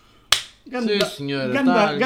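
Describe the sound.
One sharp hand clap snaps out alone, then people start talking right after it.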